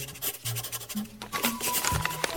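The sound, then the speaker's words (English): Scratchy writing strokes rasp steadily across a surface, a continuous rubbing texture broken by small bursts of friction, with faint low tones in the background. “And there he goes again, writing away.”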